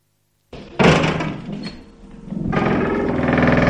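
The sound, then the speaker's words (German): Door creaking open after a brief silence, beginning with a sudden loud burst, dipping, then swelling into a sustained rough, grating creak that continues to the end. “Es war ein Türknarren.”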